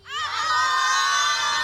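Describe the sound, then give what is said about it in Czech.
A crowd of schoolchildren at their school shouts a greeting in unison: one loud, high, sustained cheer that swells quickly at the start and then holds steady to the end. “tady je spousta dětí, kteří se teď na nás koukají, který nám fandí. Pozdravíte rádio, kejs ještě jednou?”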